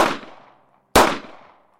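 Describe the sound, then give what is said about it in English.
Two sharp, loud shots from a 9mm pistol, about a second apart, each a sudden crack followed by a quickly fading tail, with no voices. “That was before she saw the 9mm in the man's hand. Before he lifted it and began to fire.”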